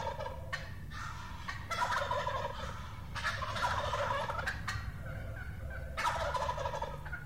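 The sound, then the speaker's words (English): A wild turkey gobbles a few times. Its rapid, rattling calls rise in bursts above a constant low rumble of background noise, all fairly faint. “I think most people are familiar with the turkey's gobble, as we hear right here. Let's listen again to the gobble.”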